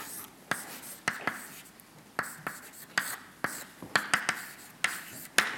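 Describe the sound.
Writing on a board as an equation is worked out: many faint, sharp taps and short scratchy strokes at an uneven rhythm, with no voices.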